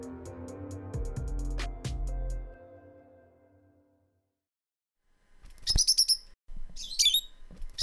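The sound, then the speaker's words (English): Rosy-faced lovebird calls from birds that have settled wild in a valley: sharp, high-pitched chirps and squawks in a few quick bursts near the end, after a low tonal sound that fades into silence. “This is the sound of a rosy-faced lovebird.”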